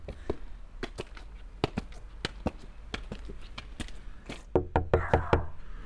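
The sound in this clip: Sharp raps of knuckles on a house door on a street in Ísafjörður, many irregular knocks spread over several seconds, with a louder, quicker cluster near the end.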